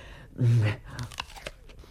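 A crisp bite into an apple taken to taste it: one loud, crunchy snap followed by several softer chewing crunches.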